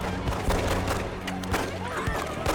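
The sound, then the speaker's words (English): Rubber bullets are fired at people rushing out in a film scene. Many sharp cracks and dull thuds come in irregular bursts over a low, steady synth drone. “Now all hell's gonna break loose as they come streaming out right here, and the guys, first people out, get shot with the rubber bullets.”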